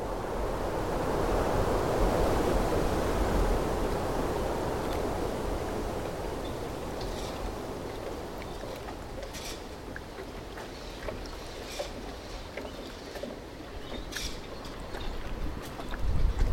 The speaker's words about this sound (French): On est sur cette digue, cette vieille digue, dit le vieux port, où on entend justement la régularité de la houle, un peu comme un métronome qui vient petit à petit sur la mangrove, là s'étouffer dessus.